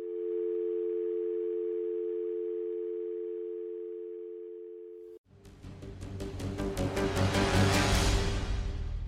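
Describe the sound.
A telephone line holds a steady, even tone for about five seconds after a call is hung up. It is then abruptly replaced by a loud, dense, rhythmically pulsing sound that swells toward the end.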